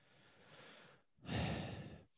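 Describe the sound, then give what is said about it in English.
Two deep breaths are heard: a softer, longer airy breath, a brief pause, then a louder, fuller breath that fades out. “The deep breath is scaring me.”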